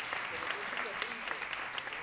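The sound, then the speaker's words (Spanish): A music school concert audience applauds a teacher with soft, continuous clapping from many hands, held at an even, fairly faint level throughout. “Un aplauso para José María.”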